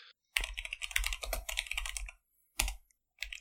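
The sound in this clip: Fingers type on a computer keyboard in quick bursts of clattering keystrokes, broken by brief silent pauses between runs of typing.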